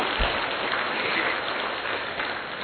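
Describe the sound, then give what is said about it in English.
An audience at a spiritual gathering claps with hands raised in the air, a dense, even patter of many hands that sounds somewhat muffled and holds steady from start to finish. “All those who are happy to be here will clap in the air.”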